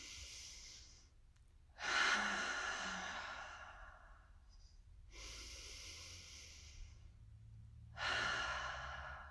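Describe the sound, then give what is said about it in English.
Slow, deep belly breaths drawn in through the nose and let out through the mouth. Three long, airy breath sounds, each soft and unhurried and fading gradually, are separated by brief pauses, with no talking. “Take those deep belly breaths and then breathe out through your mouth. And do that a couple of times together. So in through your nose.”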